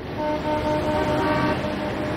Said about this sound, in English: What's going on? Looks like traffic.